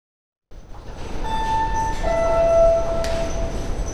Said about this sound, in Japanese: まもなく、一番線の急行列車が通過します。白線の内側までお下がりください。 電車が通過します。